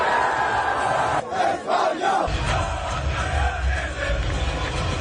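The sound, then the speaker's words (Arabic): Football crowd celebrating with the players after a final, a dense, sustained roar of chanting and shouting voices with a brief dip early on. “فرحة الجمهور مع اللاعبين وملك إسبانيا الذي تواجد بالمباراة.”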